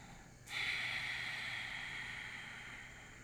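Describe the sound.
A slow, deep breath taken during a guided breathing exercise: one long, airy, steady rush of air begins about half a second in and holds for nearly three seconds, fading only slightly toward the end.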